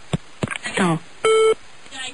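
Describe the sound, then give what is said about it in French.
A telephone line gives a single short, steady electronic tone after a caller hangs up during a live on-air phone call. Talking voices come just before the tone, and fainter voices return after it. “Il m'a raccroché au direct.”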